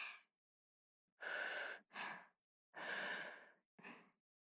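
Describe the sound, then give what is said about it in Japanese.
Someone blows softly on food to cool it before feeding it. Faint, airy breath puffs come one after another, long blows alternating with shorter ones, with no talk. “それでは改めて、ふうふうしてからあんしてあげるので少しお待ちくださいね。”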